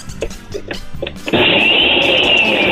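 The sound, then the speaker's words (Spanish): A blender starts up after a moment of clattering and rustling, then runs with a loud, steady whir and a high mechanical whine until the end. “¡La licuadora, venga!”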